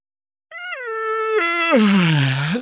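A loud, drawn-out yawn heard alone as one continuous voiced, groaning sound that holds a fairly even pitch, then turns breathy and rough, dipping low before it stops abruptly.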